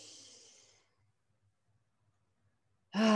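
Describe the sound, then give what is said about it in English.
A deep breath taken during a guided tapping exercise, released as a soft, breathy sigh lasting under a second. Silence follows before a voice begins. “Another deep breath.”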